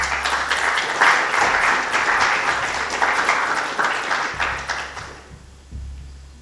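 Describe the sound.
An audience applauds to welcome a speaker at an architecture lecture. The clapping is loud and steady for about five seconds, then thins out and fades, with a few scattered claps near the end.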